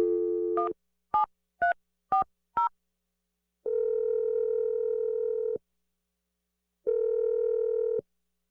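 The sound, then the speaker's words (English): A telephone number dialed on a touch-tone phone: a brief dial tone, four quick keypad beeps, then two long, steady ringing tones separated by silence. “Let's dial the number right now.”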